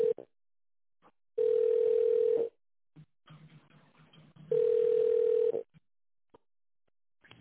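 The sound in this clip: Telephone ringing tone on the line while a call is being connected: two steady, one-second beeps at one mid pitch, separated by a few seconds of near silence with faint clicks and line noise.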